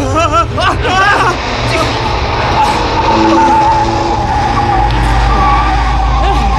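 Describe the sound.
A car with its engine overheating races and skids during a chase. A strained engine drone runs beneath loud, whining tire skids, and excited voices shout briefly near the start.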